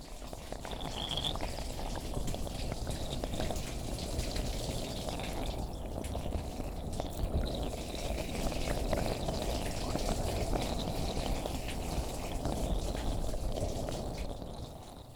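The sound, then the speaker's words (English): Running water rinsing conditioner out of someone's hair, a continuous soft splashing and trickling that stays fairly even for the whole stretch, with no talk. “It's time to rinse your hair now. Don't want to leave the conditioner on there for too long.”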